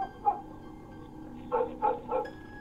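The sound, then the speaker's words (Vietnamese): Dogs barking on a village road at night: one bark, then after a pause three quick barks in a row. The barks are moderately faint. “Ở trên con đường làng có tiếng chó cắn ma vang lên nhông nhổng nhông nhổng.”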